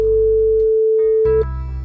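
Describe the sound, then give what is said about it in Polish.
A telephone ringing tone plays as a call is placed: a steady, loud, single-pitched electronic tone holds for about a second and a half over a low musical bed, then cuts off. “pierwszy telefon dzisiaj do pana Mirka.”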